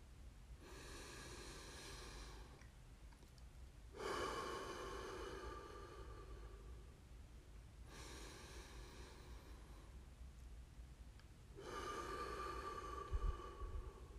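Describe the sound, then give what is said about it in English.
Slow, deep breathing during a guided breathing exercise: about four long, faint breaths, each lasting roughly three seconds, in a calm, even rhythm with no talk. “Now breathe with me.”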